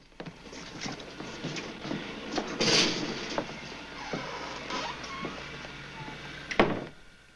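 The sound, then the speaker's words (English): The metal grille of a small lift is pulled open: a faint run of rattling clanks and clicks with a sliding scrape, and two louder bursts stand out. “The three cops stand bunched together in a small lift. They pull open the grill and head down a narrow corridor.”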